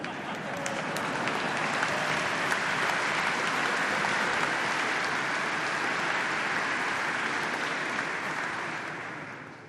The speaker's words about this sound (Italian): L'applauso lo hanno incominciato le suore, che sono vittime delle nostre omelie